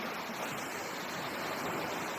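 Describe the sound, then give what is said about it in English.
Sea waves wash onto a beach in a steady, dense rush of surf noise with no clear breaks, loud and even from start to finish. “We are on the beach. The sea is clean.”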